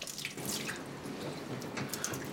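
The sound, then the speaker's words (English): Washing up at a sink: running tap water splashes and drips softly and steadily, with a few faint clinks. “Washing up afterwards.”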